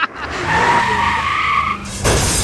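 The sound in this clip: A car skids with a long, loud, screeching tire squeal lasting nearly two seconds, then a sudden loud burst of broad noise hits at the end.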